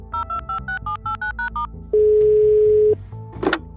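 A telephone call being placed: a quick run of short two-tone keypad beeps, then one long steady ringing tone of about a second, followed by a brief click and line noise.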